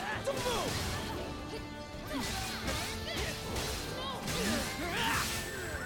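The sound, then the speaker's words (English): Video game combat as a party lands a link attack on a giant goblin: a few crashing hits and quick swishes over a busy backdrop. “We're gonna do a link attack. I mean, it's me, right? Watch out! Oh, did I miss it?”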